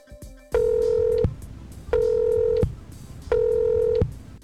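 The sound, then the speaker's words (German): Telephone tones while placing a call to Guayaquil, Ecuador: three identical steady, mid-pitched beeps, each lasting under a second, separated by short even gaps. “Dieses Mal habe ich nach Ecuador und zwar nach Guayaquil telefoniert.”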